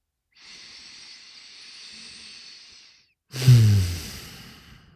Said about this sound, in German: kurzer Atemzug